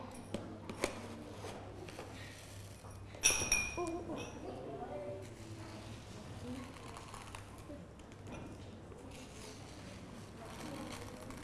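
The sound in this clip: Rice being measured out with a cup: faint clinks and light scraping, with a brief louder rattle in the middle, all set under soft talk.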